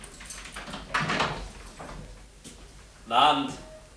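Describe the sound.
In an apartment building's locked front entrance, a door is unlocked and opened: a few muffled rattles and clunks from the lock, then a sharper, louder noise as the door swings open near the end.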